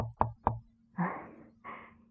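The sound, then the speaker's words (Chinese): Two sharp, quick knocks on a glass door, faint overall. Two softer, rustling bursts follow. “突然听到楼下有人喊他的名字，并且伴随着敲门声。”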